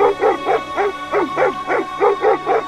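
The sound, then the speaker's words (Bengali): A small Pekingese dog barks fiercely as it circles a visitor entering a room, giving many loud, yappy barks in a quick, steady rhythm with no voices. “Sir Joseph R Poirot ঘরে ঢুকতেই একটা পিকিনিজ কুকুর দৌড়ে এসে পোয়েরোকে ঘিরে গোল হয়ে ঘুরতে ঘুরতে ভয়ঙ্কর চিৎকার জুড়ে দিল”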